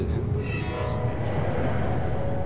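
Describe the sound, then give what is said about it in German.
Continuous low rumble of a Deutsche Bahn ICE train running to Hamburg-Altona, a steady, even roar with a faint tonal hum layered over it and a brief brighter hiss early on, holding the same level throughout with no voices. “Damen und Herren, wir begrüßen Sie im ICE der Deutschen Bahn nach Hamburg-Altona über Hamburg Hauptbahnhof.”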